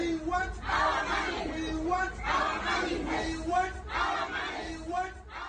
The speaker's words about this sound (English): Those are chants from content moderators in Kenya.